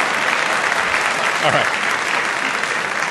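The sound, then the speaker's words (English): An audience at a debate bursts into applause on cue as a speaker is introduced. Dense, loud, sustained clapping fills the whole moment without a break. “I'm going to do that again because I needed, you all missed the applause cue so badly. So I want to introduce James again and give him that robust welcome that you've been doing all night.”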